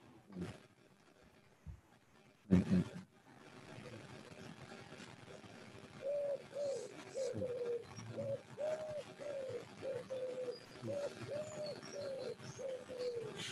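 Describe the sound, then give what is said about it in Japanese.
A pigeon cooing: soft, low, repeated coo phrases recur many times in a steady rhythm over a quiet background. “いい鳩鳴いてるね。 いい鳩が鳴いてる。 いい背景。”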